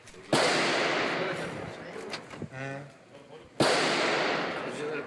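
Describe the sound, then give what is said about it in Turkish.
Gunshots from a deadly landlord–tenant shooting at a home in Maltepe, Istanbul: two loud, sharp bangs, each trailing off in a long decaying echo, with a brief voice-like sound between them. “Silah seslerinin yankılandığı adres İstanbul Maltepe.”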